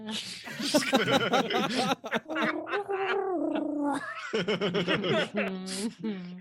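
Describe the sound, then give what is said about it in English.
A voice imitates a weird cooing noise coming from inside a room, making warbling, gurgly coos and trills over several seconds, broken by snicker-like chuckles. “There's some weird cooing noise coming from in there. We don't know what it is. Cooing noise. Yeah, it's going like this.”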